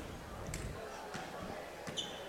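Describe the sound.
A basketball being dribbled on court before a free throw in a Thunderbirds game, with three dull, evenly spaced bounces under a commentator talking.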